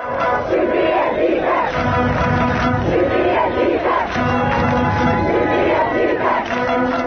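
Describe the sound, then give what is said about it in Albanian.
Secondary school students chanting slogans in a square in Pristina, loud shouted phrases repeated in a rhythmic pattern over a constant roar of the crowd. “Që nga mëngjesi në sheshin e Prishtinës kanë defiluar nxënës të shkollave të mesme duke brohoritur Shqipëri etnike, krenar të jetë shqiptar e të ngjashme.”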